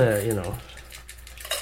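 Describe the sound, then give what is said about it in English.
A container lid being pressed shut tightly, heard as a brief clatter of handling with a few faint clicks and rattles. A short tonal squeak comes at the start. “That was the lid shutting tightly.”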